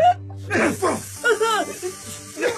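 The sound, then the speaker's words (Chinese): Men wailing and groaning in pain inside a room, several drawn-out, wavering cries in short bursts over a low steady tone. “此时房间里传来罗杰和手下的哀嚎。”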